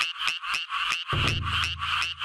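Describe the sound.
A tree frog calls while sitting on or near a rice paddy bank, giving a fast, loud series of rasping, pulsed notes repeated at a steady rhythm.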